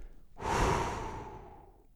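A person breathes out slowly during a relaxation exercise: a single long, soft, airy exhale that swells quickly and then fades gradually.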